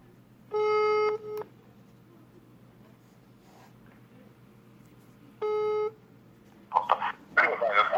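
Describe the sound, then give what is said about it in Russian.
Telephone ringback tone while a call is being placed: two steady, level beeps separated by a long pause, then a few short noisy bursts. “Сейчас наберем его нормально, узнаем.”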